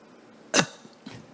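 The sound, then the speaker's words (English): A voice imitates labored, suffocating short breathing: one sharp, loud gasping breath, then a second, fainter and shorter one after a brief near-silent pause. “You can't take a nice deep breath. You don't get to do that in hell. There's not enough oxygen. So maybe only an asthma patient can relate to this, or a fireman. This is how you breathe in hell.”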